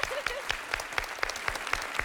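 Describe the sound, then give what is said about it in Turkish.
Applause from a group during a quiz game, a steady patter of claps with sharp peaks roughly every quarter second, suggesting some rhythmic clapping. A brief voice briefly rises over the clapping. “Oo, alkış.”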